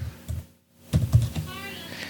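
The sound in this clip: A few sharp clicks of typing on a computer keyboard, brief and uneven in rhythm, with short pauses between keystrokes.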